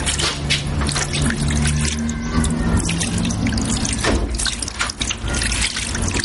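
Water runs from a tap into a sink in a small shop, a continuous steady rush with splashes and drips, even in level and with no one speaking.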